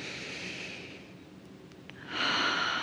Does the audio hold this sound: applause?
no